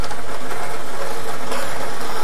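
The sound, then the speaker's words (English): A lottery draw machine spins its balls on a Thursday evening, making a steady, loud mechanical whir and rattle throughout. “We are ready to create some draw the line winners. Let's get these balls spinning.”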